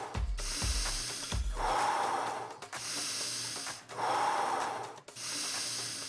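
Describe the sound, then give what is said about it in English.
Deep breathing in and out during a breathwork practice: a steady run of long, forceful, airy breaths, each one loud and hissing, separated by brief pauses. “Few more breaths in. Few more breaths back out.”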